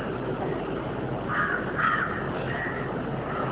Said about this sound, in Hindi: पक्षियों की आवाज है